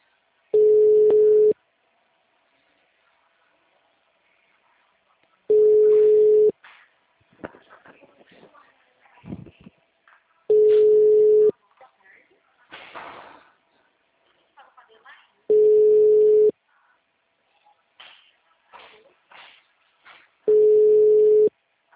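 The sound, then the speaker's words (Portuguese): A telephone line signals that all lines are busy: five steady, low beeps, each about a second long, sound at even intervals, with a recorded voice talking in the gaps between them. “Todas as linhas estão ocupadas no momento.”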